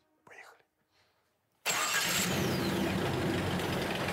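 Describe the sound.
A car engine with oil overfilled to the highest possible level starts, bursting in abruptly and settling into a loud, steady run. Soft whispered voices come before it.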